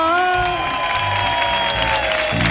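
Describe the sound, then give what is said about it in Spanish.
A live audience at an evening show cheers in a dense, loud, continuous roar of many voices, with higher whoops and shouts rising above the crowd noise. “Cómo suena, ¿eh? Mira cómo suena el público de esta noche.”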